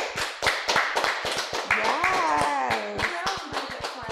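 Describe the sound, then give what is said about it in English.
An audience applauds guests on a talk show with a dense, continuous run of claps. Loud whooping cheers rise over the clapping. “Give a big hand for Amani and Kenzie.”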